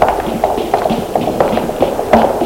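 Running footsteps of a frightened person fleeing through a courtyard and town: many quick, regular thuds of moderate loudness that keep an even rhythm throughout, with no voices.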